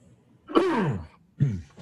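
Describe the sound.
Throat clearing from someone whose throat is choking up mid-conversation: two rough, raspy bursts, a longer one followed by a shorter one, with a faint trailing catch and no speech.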